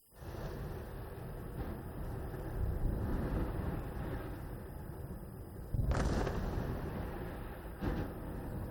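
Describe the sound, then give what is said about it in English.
Air and artillery strikes pound Gaza in a bombardment. A faint, continuous low rumble is broken by a sharp burst about six seconds in and a shorter thud near the end. “This is Gaza, where Israel's air and artillery strikes have become a regular occurrence. In the besieged strip, sounds of bombardment are followed by screams of mothers losing their kids,”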